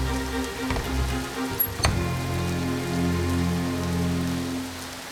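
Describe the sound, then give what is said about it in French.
Steady heavy rain falling, a continuous hiss with scattered drop taps over low sustained tones, accompanying a children's retelling of the great flood story. “La pluie tombe longtemps, très longtemps.”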